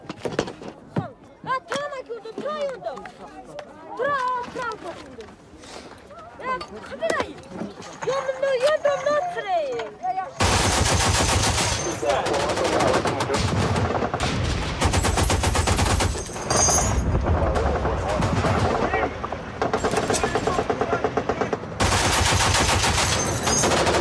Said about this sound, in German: Worauf schießen wir eigentlich, verdammt nochmal?